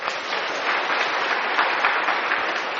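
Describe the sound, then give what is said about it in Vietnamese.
Applause from students at a Buddhist dharma talk, clapping on a teacher's request: steady, dense, even clapping without pause, heard alone. “Các bạn giỏi. Hoan nghênh cái nữa đi.”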